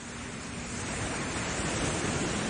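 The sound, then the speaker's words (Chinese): Ocean waves on a beach make a steady, broad rushing wash of surf, with no distinct breaks between waves. The sound is heard alone. “心有千千结的时候，独自一个人去海滩的时候，听下这些海浪声，是不是会洗涤你的心灵呢？”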